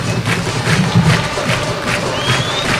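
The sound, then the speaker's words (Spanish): Football supporters chanting in the stands at a Gimnasia versus Patronato match, a loud, sustained crowd roar pulsing in a regular, rhythmic beat throughout. “Escuchen, ese es el aliento.”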